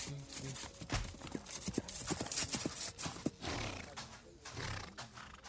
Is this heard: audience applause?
no